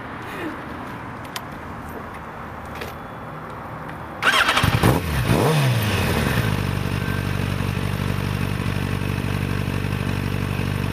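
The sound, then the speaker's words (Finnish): A Yamaha motorcycle engine starts in cold weather: a low, quiet rumble gives way to a sudden loud catch partway through, then a steady, even engine run that holds to the end. “käynnistä. Miten Jamaha lähtee? kylmä ollut keli, mutta tuota, kyllä se siitä starttaa.”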